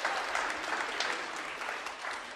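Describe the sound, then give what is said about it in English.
Applause from an audience greeting two volunteers called up on stage, a dense, steady clapping that holds at an even level throughout with no voices on top. “Round of applause for Nathaniel and Ryan.”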